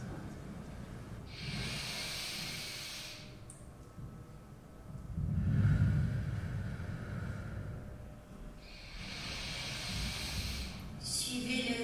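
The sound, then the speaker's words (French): Slow, deep breaths are drawn in and let out, forming long airy swells of hissing breath that rise and fade. A few unhurried cycles follow one another, fairly faint and alone. “Inspirez profondément. Expirez lentement.”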